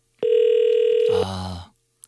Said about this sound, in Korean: 전화하고 있습니다. 신호 갑니다. 꼭 받아주세요.